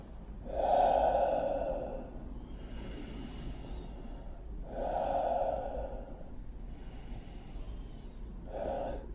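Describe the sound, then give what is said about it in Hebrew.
Slow, deep breaths in and out during a breathing demonstration, filling the belly and chest and then emptying them, with a few long, airy inhales and softer exhales between, all fairly quiet and with no talk. “לנפח גם את חלל בית החזה ולנשוף את האוויר בחזרה, לרוקן את הבטן התחתונה ואת בית החזה. וזה יישמע כך: שאיפה,”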